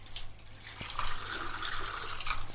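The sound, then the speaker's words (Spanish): Running kitchen tap water as a glass is rinsed under the stream: a steady, broad splashing hiss that swells slightly after the first second and carries on without pause to the end. “Lo enjuaga bajo el chorro de agua del grifo. Cierra el grifo y lo pone a escurrir junto a otros vasos”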